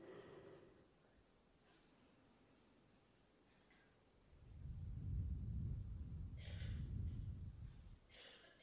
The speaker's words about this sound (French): Ensuite, on change, on bouche la narine gauche et puis on inspire, on expire par la narine droite.